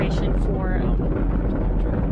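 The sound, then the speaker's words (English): A crewed SpaceX Falcon 9 lifts off from Florida with its nine Merlin engines roaring: a dense, steady low rumble with hiss above it. The roar stays even throughout, and a voice is heard over it. “Thomas Pesquet and 3 others were aboard the 3rd SpaceX launch with humans. The launch was delayed one day because of Florida weather, but the crew was able to lift off early Friday morning.”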